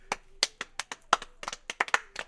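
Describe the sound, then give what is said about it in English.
Applause for a studio guest on a St. Patrick's Day holiday show: many sharp, separate hand claps at an uneven rhythm, fairly quiet and with no voices over them. “Let's give it up for Marge.”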